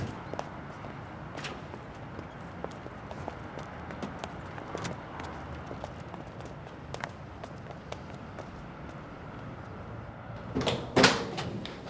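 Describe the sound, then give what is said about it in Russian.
A door being opened at an apartment entrance in a film scene, as nurses arrive: low steady background with faint scattered ticks, then a short cluster of sharp clicks and a rattle near the end. “Дверь открывает Лика.”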